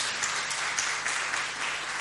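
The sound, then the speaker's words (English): An audience applauds the worship team at a church service, with dense, steady clapping that holds an even loudness for the whole stretch and no break. “Give a big hand clap to the worship team.”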